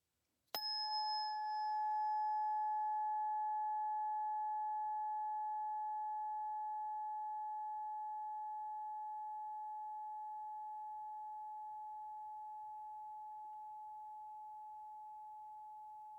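Tuning fork, the third in a set, struck once: a brief bright attack gives way to a pure, steady ringing tone with a faint higher overtone, slowly fading over about sixteen seconds with no talk.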